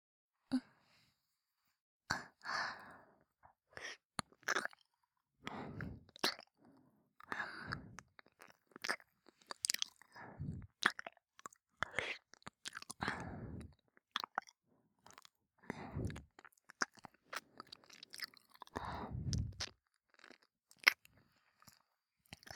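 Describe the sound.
Wet mouth sounds of someone nibbling on an earlobe: many soft, close smacks and crunchy little bites in an irregular rhythm, quiet and without speech.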